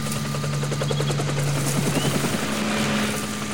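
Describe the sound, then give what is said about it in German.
Two helicopters flying low along the coast on a search, a steady droning rotor noise with a continuous chopping beat, even and moderately faint throughout. “Sie kommen. Zum Glück nur 2 Hubschrauber. Sie suchen die Küste ab.”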